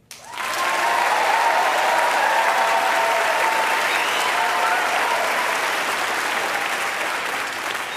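Live audience applause greets a 17-year-old violinist, concertmaster of the Hawaii Youth Symphony, in Honolulu. Dense, even clapping begins almost at once and holds strong for the full eight seconds, easing only slightly at the end.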